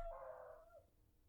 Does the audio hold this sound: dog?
yes